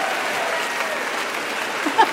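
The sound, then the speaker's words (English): An audience at Shoreditch Town Hall applauds as a singer is welcomed onto the stage at a live event. The clapping is dense, steady and even throughout this brief stretch. “Shoreditch Town Hall, please give the biggest round of applause for our very own dancing queen, the brilliant Sophie Ellis-Bextor.”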